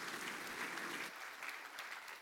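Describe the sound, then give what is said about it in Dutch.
An audience applauds three participants at a talk, dense and steady clapping at a moderate level that continues throughout without pause or voices. “Mag ik een applaus voor deze drie mensen voor jullie bijdrage?”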